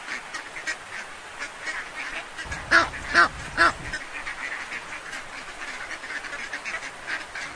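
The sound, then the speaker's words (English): A duck quacking: three loud, nasal quacks in quick succession near the middle, over a faint background hiss. “Duck.”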